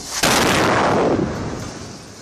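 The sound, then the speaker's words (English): A single blast from a small roof-knocking warning missile fired by the Israeli military on a building in Gaza: a sudden loud boom that fades into a long, rumbling decay. “This is how the Israeli military is warning Palestinians of an impending missile strike in Gaza.”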